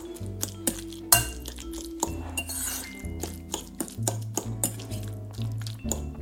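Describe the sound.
A utensil mixes food with lemon juice and pepper in a bowl, making many light, irregular clinks and taps against the dish along with soft stirring scrapes, quiet and without talk.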